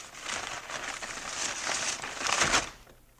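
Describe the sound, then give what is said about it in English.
Wrapping paper crinkles and rustles as a birthday present, a toy fire engine, is unwrapped, a continuous dry crackling that swells into a louder tearing burst before fading. “Please, Paul, it's his birthday. All right. Go ahead, unwrap it.”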